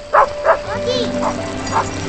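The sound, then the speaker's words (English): A family dog barks several times in short, sharp bursts spaced irregularly, with a voice talking underneath. “Later, Danny bikes after the family dog.”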